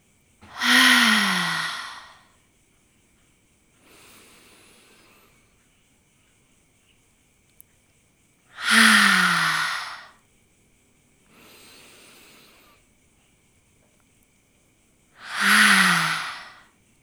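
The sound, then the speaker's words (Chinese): Three deep, forceful exhalations through the mouth during a guided breathing exercise, each a loud, breathy whoosh separated by long pauses containing softer, quieter breaths. “吸气时，将大地的能量深深地吸到丹田，吐气的时候，将此时身体的紧绷、紧张的感觉用嘴巴大口地吐出来。我们一起来做三次。”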